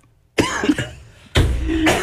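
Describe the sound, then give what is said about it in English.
Two loud, rasping coughing bursts from a person with a tickle in the throat. Each starts abruptly and trails on for almost a second, the second about a second after the first, with no speech. “I'm going to say every 10 words, I'll cough.”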